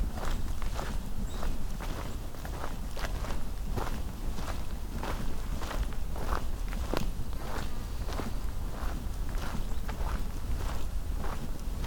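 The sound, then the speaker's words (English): Footsteps of a person walking outdoors near a lake, many evenly spaced steps at a moderate, regular pace over a constant hissing background. “Looks like I have to walk a little further to get to the grouse.”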